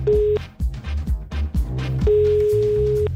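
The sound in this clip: An outgoing phone call to an office colleague produces a steady ringback tone, first a short burst and then a longer one lasting about a second. A rhythmic music bed with low thumps plays between and beneath the tones.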